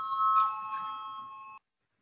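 A voting bell rings in a parliament chamber, a sustained, bright electric tone with ringing overtones that holds steady for about a second and a half, then cuts off abruptly into silence.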